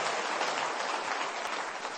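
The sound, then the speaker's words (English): Audience applause for a gentleman from the crowd, a thick and even patter of many hands clapping together, steady in loudness across the whole stretch and fading just slightly near the end. “And we should all applaud the gentleman.”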